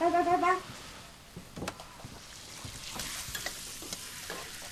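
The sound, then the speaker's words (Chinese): Food stir-fried in a pan while cooking dinner: continuous sizzling with scraping, clattering stirs, after a brief tonal sound at the start. “那行，那我炒菜呢”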